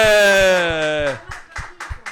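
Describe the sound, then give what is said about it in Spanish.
A few sharp hand claps ring out in a residence for people with mental illness, following a drawn-out voice. The claps come as separate, loosely spaced strikes rather than a full ovation. “Le damos un aplauso”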